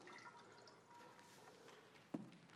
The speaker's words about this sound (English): So if I take salt and I put it in water,